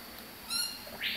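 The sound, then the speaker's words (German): Birds in a jungle tent at breakfast feeding time give a couple of short calls: a squawk with a ringing, tonal edge, then a higher, harsher screech, both faint over a steady background hiss. “Ich verteile jetzt das Frühstück für die ganzen Vögel hier im Dschungelzelt”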